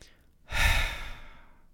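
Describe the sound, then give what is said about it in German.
A long, deep exhale through the mouth during a breathing exercise: a breathy rush begins after a short pause, is loudest at the start, then slowly tapers away over about a second, heard alone without talk. “Anhalten und dann ganz tief und lange durch den Mund wieder ausatmen.”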